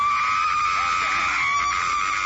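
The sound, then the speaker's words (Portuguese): Loud, high-pitched screaming from people at a church deliverance service, held as one continuous, unbroken cry across the whole clip with no pauses. “Se puder trazer aqui pra frente, eu agradeço, irmãs obreiras. Vão gritando pra Jesus queimar ele.”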